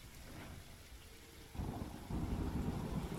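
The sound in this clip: A thunderstorm with steady rain. The low rumble of thunder swells in two steps and stays loud and rolling to the end, with no talking.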